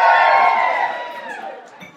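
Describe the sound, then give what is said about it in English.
An audience at an awards ceremony cheers and whoops. The burst of raised voices is loud at first, then fades away over about two seconds. “Can I have a cheer from you if you're here supporting someone who's nominated this afternoon? Can I have a cheer if you're going to go home with a trophy this afternoon?”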